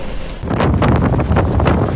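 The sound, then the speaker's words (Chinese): Strong storm wind and rough waves on a flooded seafront promenade during a southeasterly storm surge in Monte Hermoso, Argentina: a loud, continuous roar of gusting wind buffeting the microphone, with churning surf beneath and no voices. “天空阴沉，狂风一整天不停，巨浪翻滚，海滨步道已被淹没”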